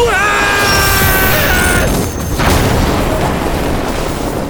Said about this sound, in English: What happened? It looked like it exploded in Dodds' face.